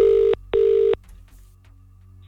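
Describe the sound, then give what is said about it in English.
A telephone rings with two short, steady electronic tones in quick succession, a classic double ring, followed by quiet. “There's a particular way you must answer the phone if this is your phone ringing right now.”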